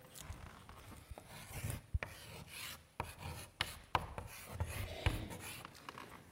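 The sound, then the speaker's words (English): Writing on a board makes quiet, scratchy strokes in irregular runs, punctuated by a few sharp taps as the writing tool meets the surface. “And I'm going to write up here the Syrian Empire.”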